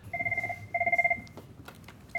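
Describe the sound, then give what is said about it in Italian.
Office telephone ringing with bright, trilling electronic bursts: two rapid pulsing rings separated by a short pause, then the start of a third, fairly loud over a low background hum. “intanto c'è proprio il telefono di SBS.”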